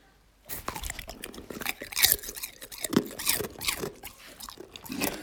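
Crunchy chewing of potato chips, many crisp bites and crackling crunches in an irregular rhythm, fairly loud and alone without talk.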